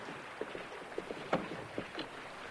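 Men row an open boat with oars, making a few faint, rhythmic splashes and knocks over a soft wash of wind and water.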